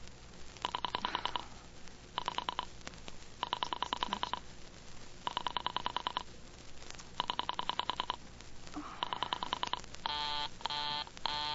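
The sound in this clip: An operator dials a telephone number: six separate bursts of rapid, buzzy dialing tones with short pauses between them, then a few short, brighter harmonic tones at the end. No voices are heard.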